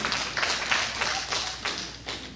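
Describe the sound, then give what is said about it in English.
Scattered clapping from part of a church audience during a sermon, a few uneven, fairly soft bursts of claps rather than full applause. “See, only like half of you clapped.”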